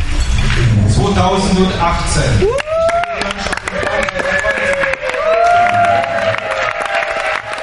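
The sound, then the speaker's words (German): A crowd cheers and shouts for the French women's torball team after their 4-2 final win over Germany at the first International Nations Cup in 2018. The cheering is loud and continuous, with raised voices and sustained calls throughout. “Der Jubel bei den Französinnen hörbar groß nach diesem 4-2 Finalsieg über Deutschland.”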